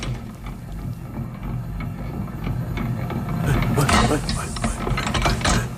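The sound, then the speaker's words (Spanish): A mixer with rotating arms makes a whirring, clattering mechanical churn, a steady ratcheting rattle that grows somewhat louder toward the middle and keeps going to the end. “O sea, ¿qué es este sonido? Esto es una mezcladora, uno de estos brazos que van girando.”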